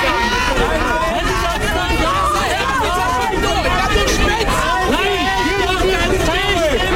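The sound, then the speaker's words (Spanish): Loud, dense crowd hubbub from anti-restriction protest marches clashing with police in Charlottenburg: many overlapping voices and shouts blend into a continuous roar that holds steady for the whole stretch. “Este es el sonido de estos incidentes ocurridos durante las marchas convocadas por el movimiento Kerdenkerd, que congrega a conspiracionistas y antivacunas y ha derivado en enfrentamientos con la policía en el barrio de Charlottenburg”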